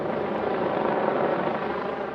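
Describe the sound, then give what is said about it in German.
A police helicopter flying over a city district during a manhunt after shootings, heard as a steady, dense rotor-and-engine drone at an even level throughout. “Der Hubschrauber fliegt über dem Stadtteil Kesselstadt, denn auch dort sind Schüsse gefallen.”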